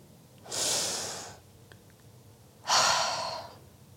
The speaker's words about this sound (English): Let me take a breath.